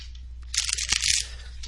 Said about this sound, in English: And I'm going to give these cards a good shuffle